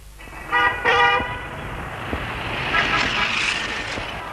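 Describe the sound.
Car horns honk in a street traffic jam: a couple of short, bright toots stand out early over a steady wash of engine and road noise that swells slightly toward the end.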